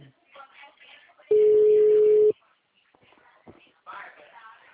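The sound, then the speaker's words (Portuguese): Telephone busy signal on an outgoing call: a single steady mid-pitched tone lasts about one second, loud and clear, with people talking before and after it. “tô ligando agora. O número está ocupado.”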